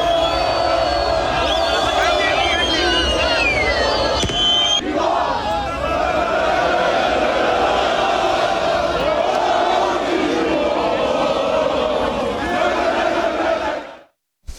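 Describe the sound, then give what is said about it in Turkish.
Football fans singing and chanting championship songs during Galatasaray title celebrations, a loud sustained roar of massed voices that holds steady for most of the stretch before cutting off abruptly near the end. “Şampiyonluğu için kutlamalar yapıldı. Taraftarlar şampiyonluk şarkıları söyledi.”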